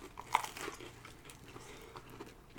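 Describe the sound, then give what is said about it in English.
Biting into a pizza with crust gives one sharp, crisp crunch near the start, followed by faint, soft crackles, with no talking. “then I'm gonna take a bite”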